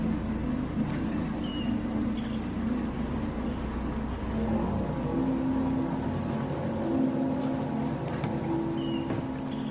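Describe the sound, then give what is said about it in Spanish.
A small boat's motor runs as the boat pulls away along a river, a continuous low engine drone throughout, fairly quiet and even in level. “A continuación activa el motor y se marcha navegando por el río.”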